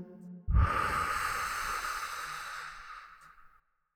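One deep breath taken during a guided relaxation exercise, in through the nose and out through the mouth: a sudden airy onset turns into a long, soft hiss of air that fades away over about three seconds, with no talking.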